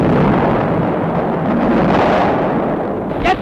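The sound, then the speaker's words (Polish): Heavy booming roar of a battleship's artillery salvo during the fight for Gdańsk, a loud dense rumble that fills the whole stretch with little break and ends on a brief sharper burst. “Teraz Schleswig wystrzelił kolejną salwę.”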